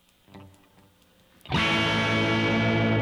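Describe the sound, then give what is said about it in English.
A bass guitar through an effects chain, on a tone meant to be clean that comes out distorted. A few faint notes come first, then a loud, thick note bursts in halfway through and sustains evenly to the end. “So there was your clean tone. That was not very clean.”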